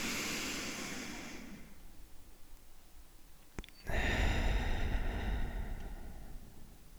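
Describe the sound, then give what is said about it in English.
A deep breath in and out, quiet and airy. A long rushing inhale fades over a few seconds, then after a brief pause a louder, broad exhale follows. “let's take a deep breath in and a deep breath out.”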